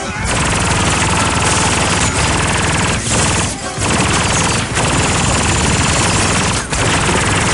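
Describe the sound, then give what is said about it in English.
Machine-gun sound effects: loud, rapid, sustained bursts of gunfire that run almost without pause, broken by a few brief gaps between volleys. “This is the sound of the guns”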